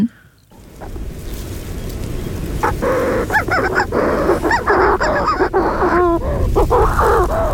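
Shrill, screeching calls of a black-backed, agile-flying bird at its breeding grounds. Many harsh shrieks repeat in quick bursts over a constant rush of wind or surf.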